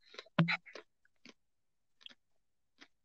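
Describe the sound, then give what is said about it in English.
An almond M&M is chewed for ASMR: one loud, crisp first crunch is followed by a few softer, sparse crunches and clicks, separated by near silence. “Another almond M&M for those listening. I hope you like this ASMR.”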